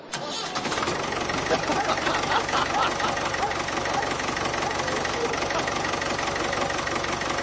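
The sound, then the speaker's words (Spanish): A Honda racing motorcycle engine at low revs, from the Jerez circuit, runs steadily throughout with a loud, dense, rumbling roar and fast, even pulsing that holds at a constant level. “siguiente motor, Honda... ...vamos a escuchar el Honda a sus pocas revoluciones...”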